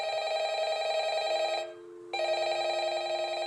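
A telephone ringing with a steady, bright electronic trill that sounds in two long bursts split by a short silent pause. The ring plays alone, with no voices.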